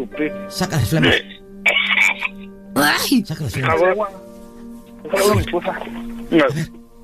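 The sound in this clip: Harsh coughing and throat clearing as someone brings up phlegm, in several rough, strained bursts spread over a few seconds, with gravelly voiced sounds between them.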